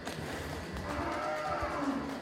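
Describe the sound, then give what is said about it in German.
A Fleckvieh dairy cow moos as it moves through an automatically opening gate toward a milking robot in a barn with a herd of 70. The moo is a long, low, drawn-out call over steady background noise. “Wieder bewegt sich eine der 70 Fleckviehkühe von Michael Haider durch das automatisch öffnende Gitter zum Melkroboter.”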